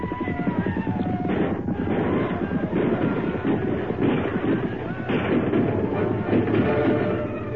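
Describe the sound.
Gunfire is exchanged among rocks and boulders in a dense, continuous barrage of many rapid, overlapping cracks and booms that stays loud throughout.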